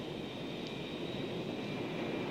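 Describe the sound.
An airplane taking off, heard as a steady, continuous engine roar with a faint high whine on top. The level holds even throughout, with no voices.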